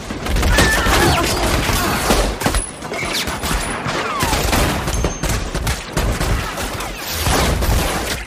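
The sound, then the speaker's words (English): A loud, chaotic volley of gunfire from a film shootout where everyone opens fire at once. Many overlapping shots and cracks run almost continuously from start to end, with splintering impacts mixed in. “And they all open fire.”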